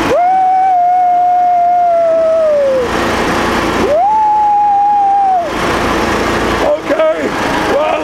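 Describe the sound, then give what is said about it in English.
A car's engine whines at high revs as it accelerates out of a hairpin turn on a fast lap. A steady, loud tone holds, then drops away and climbs back, with brief dips near the end. “Into another hairpin. Left, left, left, left, brake. Woo! Okay, accelerate out of the turn.”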